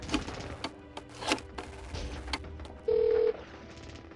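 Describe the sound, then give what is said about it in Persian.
Telephone tones as someone places a call: a few clicks and knocks, then a steady electronic ringing tone that sounds briefly in the second half. “صبر کن من با حاجی تماس بگیرم.”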